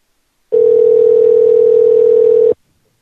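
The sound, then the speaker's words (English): A loud, steady telephone line tone plays while a call is placed. It holds one pitch for about two seconds, then cuts off abruptly into silence. “Okay, here we go. Calling Pimply Gents. Calling Simply Dents.”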